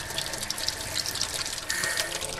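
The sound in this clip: Water running from a tap in a vacant house, a continuous hissing splash of steady flow that grows a little fuller partway through, with no voices.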